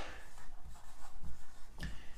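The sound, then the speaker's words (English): A pen scratches across paper as notes are written down by hand, in faint, soft, irregular strokes with one sharper scrape near the end. “I'm just writing this down. That's why I'm taking so long.”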